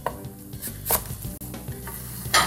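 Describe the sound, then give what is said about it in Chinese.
A knife slices napa cabbage during cooking, making a few crisp, brief cuts that stand out over a steady background of kitchen noise. “白菜我们就直接切片就好了。”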